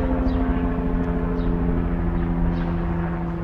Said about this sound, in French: They're all taking B-roll, I hear, these helicopters.